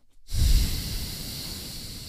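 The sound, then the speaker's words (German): A deep exhale through the left nostril while the right nostril is held shut. It is one long, breathy hiss that starts strongly and then holds steady to the end. “Jetzt hältst du dir mit dem rechten Zeigefinger dein rechtes Nasenloch zu und atmest durch das linke Nasenloch aus, und zwar ganz tief.”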